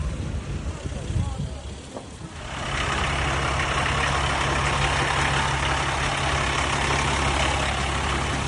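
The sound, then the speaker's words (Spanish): Engine rumble of a vehicle approaching along a street in the flood-hit town of Paiporta, Valencia, Spain. The low, broad roar grows louder partway through, then holds at a steady, heavy level to the end. “Echa los lados, por favor, que viene el vehículo.”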